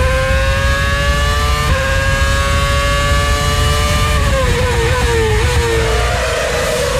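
Formula 1 race cars scream through the 2010 Turkish Grand Prix in Istanbul in a loud, sustained engine whine with layered tones that holds steady, then slides lower in pitch toward the end.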